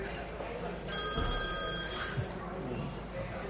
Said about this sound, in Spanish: ese es mi teléfono, ¿no? Sí, espera.